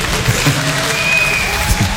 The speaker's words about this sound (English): The ripple there. This nearly the Zen clap of acceptance there, wasn't it?